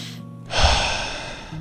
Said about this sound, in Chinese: 再来，深呼吸个三次、六次，大不了九次吧